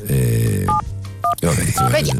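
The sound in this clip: A telephone rings while someone calls a restaurant, heard as a few short, high electronic ring tones under continuous talk.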